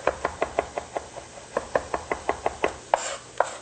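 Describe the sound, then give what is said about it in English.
A knife mills garlic on a cutting board in many quick, evenly spaced taps, a faint, steady chopping rhythm with no voices. “And then we'll just mill the garlic. Milling is just moving your knife back and forth across the garlic and bringing it back together.”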